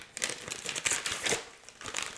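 Crinkling and tearing of Christmas present wrapping paper as it is ripped open, heard as many short, uneven papery bursts of varying loudness with no talking.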